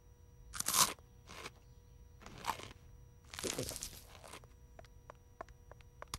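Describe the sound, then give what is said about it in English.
Crunching bites into a stale muffin: a few dry, crackly bursts separated by pauses, the first the loudest, with faint scattered clicks between and no talk. “Now everyone enjoy one of my yummy muffins. But it's stale. Eat the muffin.”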